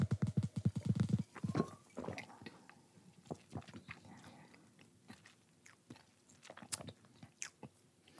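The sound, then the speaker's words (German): Mouth sounds of someone taking a sip of malty beer during a tasting: a quick burst of low, rapid gulping pulses in the first second, followed by scattered faint smacks and clicks, with no talking. “Ja, nehmen wir doch mal einen Schluck.”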